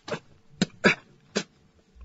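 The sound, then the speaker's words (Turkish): Coughing fit in a radio drama: four harsh, separate coughs at uneven intervals, the middle two close together, and each cough stands alone against near silence. “Ah, öksürük. Beni boğacak.”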